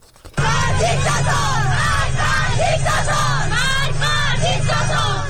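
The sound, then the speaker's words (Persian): Schoolgirls who have removed their hijabs chant slogans in a loud, rhythmic group, their voices bursting in abruptly after a brief quiet moment and continuing at full strength throughout. “صدای دختران دانش آموزی که با برداشتن حجاب در مدرسه و خیابان شعار می‌دهند”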